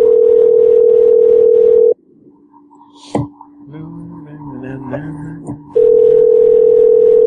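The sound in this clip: Steady telephone dial tone heard before a call is dialed, a loud unbroken hum for about two seconds, then a quieter stretch of handset noise with a sharp click and faint tones, before the same steady tone returns.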